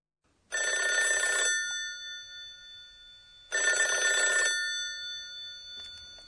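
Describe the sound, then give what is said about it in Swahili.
Telephone ringing: two bright, metallic ring bursts of about a second each, separated by a pause of roughly two seconds, each leaving a lingering tone that fades slowly. No voices. “Pururu. Sauti ya simu? Kweli kabisa.”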